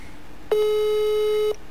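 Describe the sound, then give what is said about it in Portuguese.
A telephone line tone during a call: one steady, mid-pitched electronic beep lasting about a second, loud and alone over faint background hiss. “eu tava ligando aqui pro Paulinho”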